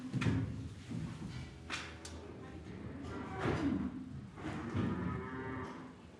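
A calf on a farm moos several times in drawn-out, fairly low calls spread across the stretch, with faint shuffling sounds between them.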